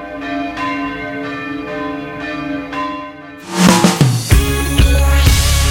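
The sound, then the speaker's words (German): Church bells at St. Stephan ring as the faithful enter the church. A single bell first tolls in steady, resonant strokes, then a loud, dense peal of several bells breaks in and keeps clanging. “wenn der Einzug der Gläubigen in die Kirche von Glockengeläut begleitet wird. Das ist einfach schöner, wenn gescheit geläutet wird.”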